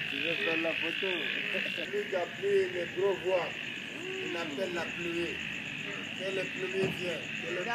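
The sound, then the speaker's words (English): Toads croaking in a busy chorus of short, throaty calls that repeat many times, some overlapping, above a steady high hum. “C'est les crapauds. C'est joli, non? Wow. It is indeed frogs.”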